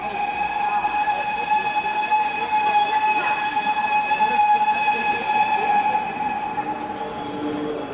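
A train at a railway station platform gives a sustained tonal whistle-like sound, steady in pitch with strong harmonics, held over a constant low rumble throughout.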